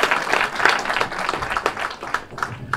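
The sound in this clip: An audience applauds to welcome the next speaker at an event, a steady patter of many hands clapping at moderate volume.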